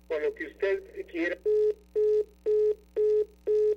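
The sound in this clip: A telephone busy tone after a dropped call: five evenly spaced, steady beeps at one pitch follow a short stretch of talk.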